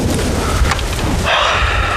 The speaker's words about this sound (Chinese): 原来是打雷啊，我当时不好想鬼子来了呢。我的妈呀，这雷可真大，感觉要天崩地裂了。